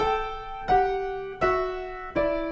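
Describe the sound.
Piano plays two voices moving together in parallel sevenths: four struck intervals follow one another in slow succession. Each rings and fades before the next, and the pair steps gradually downward.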